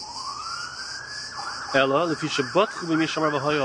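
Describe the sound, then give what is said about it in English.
A siren on a nearby road rises in a long upward sweep, then breaks into rapid warbling wails over a steady background of traffic noise. “sorry about the noise in the background, I am not far from the road,”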